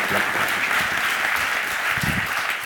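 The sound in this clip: Applause from a church audience welcoming a speaker to the front, dense and steady clapping that holds at an even level from start to finish.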